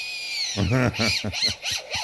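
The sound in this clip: A lyrebird mimics a cordless drill with a few short whirring, buzzy bursts. The bursts carry bright tonal overtones and wavering pitch, and come in quick succession with brief gaps between them.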